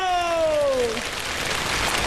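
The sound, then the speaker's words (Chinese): A live crosstalk audience bursts into applause and cheering as a sung, drawn-out falling vocal note ends, then keeps up a steady, dense wash of clapping. “大家来点掌声和尖叫。”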